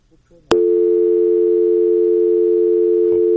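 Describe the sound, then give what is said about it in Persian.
A telephone line tone after a caller's call drops. It starts abruptly with a click and holds as one loud, continuous, unbroken note, with a brief voice just before it. “تماس بود که قطع شد.”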